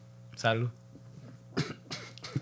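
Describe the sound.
A man coughs and chokes after swallowing a drink, with a few harsh, throaty bursts of coughing. Voices talk around him at a low level.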